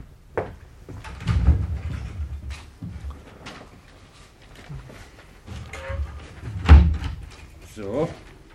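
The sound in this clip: A cupboard holding ink and paper being opened, with a few heavy low thumps and knocks among spoken voices; the strongest knock comes near the end.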